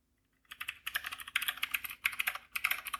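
Fast typing on a backlit computer keyboard starts after a short silence and becomes a dense, quick clatter of many keystrokes with brief pauses. The clatter is fairly soft and has no voices over it.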